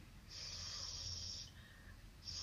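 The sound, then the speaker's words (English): Nasal spray being snorted up the nose from a neti pot: a long, loud, hissy sniff of over a second, followed by a quieter pause and the start of another sharp sniff. “What are you snorting? I'm putting in nasal spray. Neti pot.”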